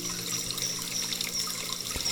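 Steady flowing water, a soft continuous trickle and rush that never pauses, fairly faint throughout.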